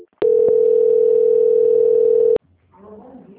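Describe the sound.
A steady, unbroken telephone line tone sounds during a call transfer, lasting about two seconds with a click at its start and end. After a short gap, a voice begins.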